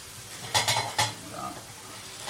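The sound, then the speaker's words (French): Kale sautéing in a pan: three sharp metallic clanks of a utensil against the pan come close together early on, then quieter scraping and stirring noise continues steadily underneath. “Donc là, tu fais poêler ton kale.”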